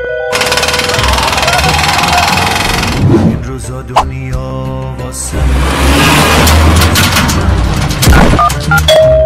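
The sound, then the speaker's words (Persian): A closet rattles and shakes as a bus passes, giving two loud stretches of heavy clattering rumble separated by a quieter, more tonal gap in the middle. “این کمد هنوز اتوبوس رد میشه میلرزه.”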